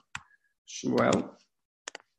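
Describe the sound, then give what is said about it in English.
A name being typed on a computer keyboard: a few sharp, quick keystroke clicks at the start and end, with a voice briefly heard between them. “takes you to a website that if you type in your name, maybe I'll do it with you. If you type in your name, it will create a hieroglyphic for you.”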